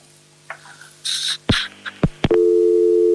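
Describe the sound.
A telephone busy tone after a dropped call: a few clicks and short noisy bursts, then a steady low tone that holds loudly to the end.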